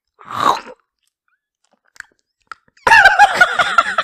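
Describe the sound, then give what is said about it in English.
Crunchy chewing of a pickle or Cheetos, eaten ASMR-style: one crisp crunch, a couple of faint clicks, then a dense, loud run of crackling bites and mastication. “That is exactly what it sounds like. If you're eating Cheetos or like a pickle or something.”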